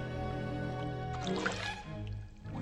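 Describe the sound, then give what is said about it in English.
Water splashes as a man in shallow water throws it at a horse. A brief burst of splashing lasts under a second over a steady tonal background. “The man splashes him with water.”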